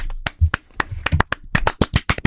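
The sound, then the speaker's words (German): A single person or a few people clap in applause with sharp, dry hand slaps. The claps start sparse and irregular, then come faster and denser toward the end, with no voices over them. “Habe ich jetzt alleine applaudiert oder was? Ich habe euch Tisch geklopft. In Ordnung. Jetzt nochmal, komm.”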